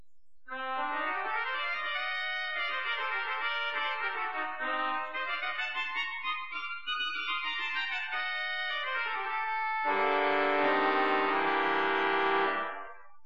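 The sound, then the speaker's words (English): A Wurlitzer organ's Viol d'Orchestre string stop plays a thin, bright, reedy sustained line that winds up and down in pitch, then swells into a fuller, louder held chord near the end. “In the string family, we have in the main side the Wurlitzer Viol D Orchestra, which sounds like this.”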